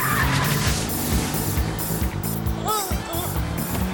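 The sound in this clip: A car turns sharply left with its tires squealing. Engine noise runs steadily, and a short squeal of rising and falling pitch near the end is heard over people talking.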